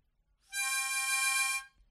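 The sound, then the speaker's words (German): A harmonica is blown in one steady chord that lasts about a second, bright and reedy with many overtones, heard alone and fairly soft. “Natürlich habe ich in der Booth hier eine Mundharmonika und kann euch das mal präsentieren. Ich puste jetzt rein, das klingt so.”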